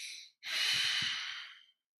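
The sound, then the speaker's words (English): A long exhale through the mouth: a steady, breathy rush lasting over a second, following a short breath, soft and heard alone. “the difference becomes when I exhale. I can exhale and offload a lot of carbon dioxide,”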